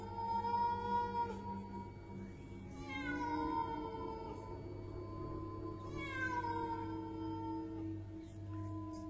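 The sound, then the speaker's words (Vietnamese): A cat meowing along a small path leading to a back garden: two drawn-out, wavering meows spaced a few seconds apart, faint over a steady low hum. “Con bé bỗng nhiên nghe thấy cái tiếng meo meo vọng ra ở cái lối nhỏ dẫn ra phía sau vườn. Âm thanh con mèo kêu nhỏ nhưng vang vào trong tai con bé rất rõ.”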